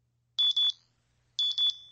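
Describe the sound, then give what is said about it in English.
A wrist screen gives high-pitched electronic beeps in two bursts of three rapid pulses, separated by a short silence. The beeps are faint and clear against a quiet background. “The faintest of beeps caused the team leader to glance down at his wrist screen.”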